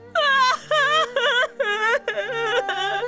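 A woman cries in a series of six long, high wailing sobs, each with a wavering, moaning pitch and a short break between them.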